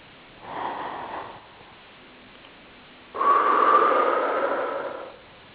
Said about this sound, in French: Et vous respirez profondément.